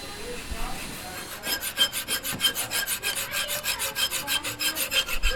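Hand sawing in a physics workshop: after a quieter opening, a rapid, even run of rasping back-and-forth strokes starts and continues steadily to the end, many strokes in a row, with no talk.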